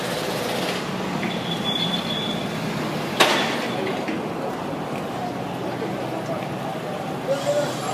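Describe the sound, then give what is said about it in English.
A train passes on a London street as a continuous rumbling wash of rail noise. One sharp clack cuts through partway along, and indistinct voices murmur beneath it. “I think that's the sound of London streets.”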